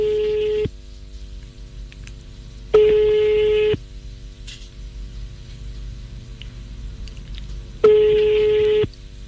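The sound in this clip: A telephone call rings out on the line with three steady, even ringback tones about a second long, separated by long quiet gaps.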